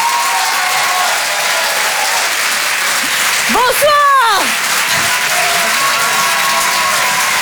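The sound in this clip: Thick, sustained applause from a comedy audience at the Apollo Théâtre in Paris greets a performer, who briefly speaks a short greeting over the clapping midway.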